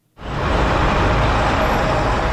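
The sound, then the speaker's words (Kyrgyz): Traffic noise from a jammed major street in Bishkek: a dense, steady roar of vehicle engines that starts abruptly and holds at a constant loud level. “Көчө абал режиминин бүтүшү менен Бишкектин ири көчөлөрүндө мурдагыдай унаа тыгындары пайда болду.”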